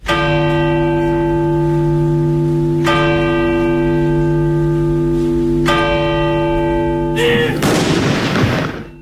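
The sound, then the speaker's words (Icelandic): Church bells toll at a king's funeral in Oslo, three loud, ringing strikes spaced about three seconds apart, each left to hum and fade, followed by a deep, booming cannon shot that rumbles to the end. “Dómkirkjunni, kirkjuklukkur hringdu og skoti var úr fallbyssum.”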